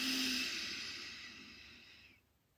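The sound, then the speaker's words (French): A slow, deep breath in during a guided gratitude relaxation exercise, a soft, airy hiss that holds for about two seconds and then fades away. “Prenez 2 à 3 respirations profondes en pensant à cette personne, cet endroit ou cette chose. Inspirez.”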